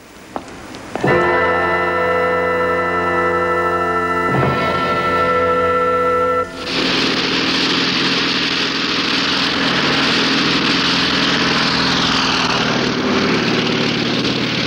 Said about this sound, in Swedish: I början av juni 1942 lyfter amerikanska stridsflygplan från sitt hangarfartyg för att angripa en japansk flotta som är på väg mot ön Midway.